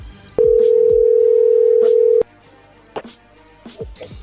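A phone call rings through as a single loud, steady tone lasting nearly two seconds. A few faint, brief knocks and clicks follow in the quiet afterward.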